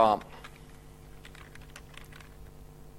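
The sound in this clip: Faint typing on a computer keyboard: soft, scattered key clicks over a steady low hum, after a brief louder burst at the very start.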